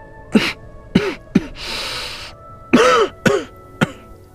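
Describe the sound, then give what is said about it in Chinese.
Soft coughing from a man wounded in the chest by an arrow as he stands in a cold wind: several short, low, throaty coughs in an uneven rhythm, with a breathy rush between them, no talk. “大风起，刺骨的凉意渗来，韩烨低低咳嗽两声，胸口的箭伤疼得沁入骨子里。”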